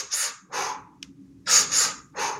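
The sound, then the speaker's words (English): Breathing exercise with a three-step breath, two inhales through the nose then an exhale through the mouth, heard as a few sharp, airy breaths in quick succession, fairly loud and alone. “it's a three-step breath. You know, it's breathing in one, two, one through the belly, one through the chest, and then breathing out.”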